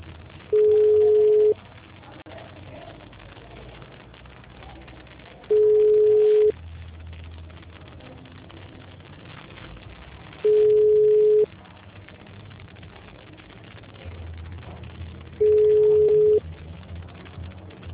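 Telephone ringing tone as a call is placed: four steady, mid-pitched beeps, each about one second long and spaced roughly five seconds apart, over a faint, low line hiss.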